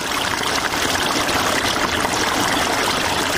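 Irrigation water flows steadily through a pomegranate orchard in Sepidkhar near Tarinkot, a continuous rushing, trickling wash that holds an even level throughout.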